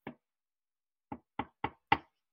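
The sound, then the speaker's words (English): Knocking on a door: a single knock, then a pause of about a second before four quick, evenly spaced knocks. Short, dull, fairly faint raps with silence around them and no voices. “knock at the door.”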